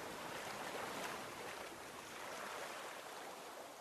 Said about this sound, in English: The relaxing sound of the water tumbling over the rocks gives you a sense of calm.